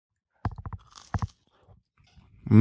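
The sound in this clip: Crunchy bites and chewing of a potato pancake with bacon and chives come in two short bursts of crisp crunching. The eater gives a brief hum.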